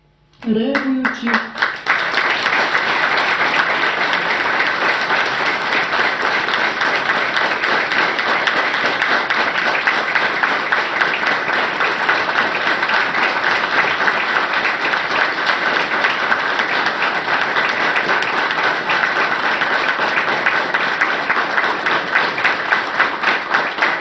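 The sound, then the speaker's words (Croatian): Sustained audience applause honours teachers being named at a school ceremony in Montenegro. After a brief soft start, dense, even clapping continues loud and unbroken for over twenty seconds. “Profesori zaslužuju mnogo više od ovog aplauza.”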